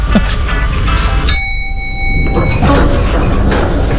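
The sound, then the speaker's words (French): An elevator sound effect for a lift going up: a bright bell-like ding sustains for about a second over a continuous rumbling, whooshing background. “Bienvenue dans l'ascenseur Sweet FM. Direction, le 4e étage.”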